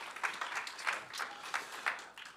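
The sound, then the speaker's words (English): An audience applauds to welcome a speaker to the stage. The steady, fairly soft clapping from many hands has a gently pulsing rhythm. “can you please put your hands together and join with me in welcoming Nick Parsons to the stage?”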